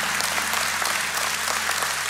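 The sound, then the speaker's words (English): A church audience clapping while worshippers seek healing: thick, continuous applause at a steady, loud level throughout, with individual claps blending into one sustained wash. “What I want the rest of you to do is I want you all to clap right now because we have some honest people that are seeking healing from God.”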